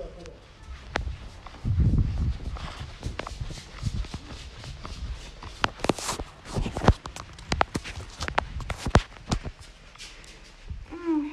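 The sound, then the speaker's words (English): Footsteps of someone walking down a staircase, an irregular run of thumps and knocks with a few louder steps near the middle and end, over faint background noise. “Let me come downstairs now.”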